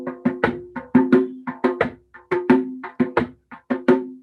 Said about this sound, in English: djembe drum, and we're going to have a demonstration eventually later, but it's the drum that kind of sounds like this.